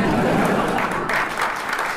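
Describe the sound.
Wedding guests at a registry office cheer and applaud as the newly married couple kiss. The clapping is dense and continuous, with voices mixed into it.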